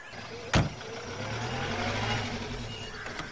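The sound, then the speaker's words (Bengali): A blue Ambassador car sets off: one sharp knock early on, then a steady low engine rumble that holds at even loudness throughout, with no voices. “Neil ambassador স্টেশনের বাইরেই অপেক্ষা করছিল আমরা পাঁচজন তাতে উঠে পড়লাম”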